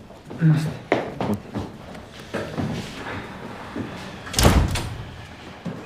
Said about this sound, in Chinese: 门关上。